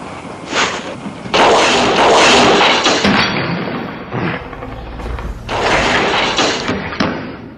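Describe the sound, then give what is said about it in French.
At a ship launch ceremony, a champagne bottle is flung too hard against the hull and punches a hole in it. A few loud, heavy crashing thuds burst out, with rumbling noise between them. “Et Toc, la femme du préfet, je n'ose dire la préfète, fait un trou dans la coque en lançant trop fort la bouteille de champagne. C'est un film de 68.”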